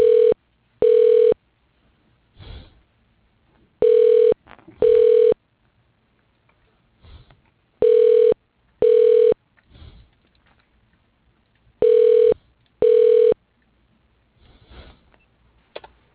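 Telephone ringback while a call is being transferred: four double-pulse rings at steady intervals, each a loud, even mid-pitched tone, with faint clicks and patter in the gaps between them.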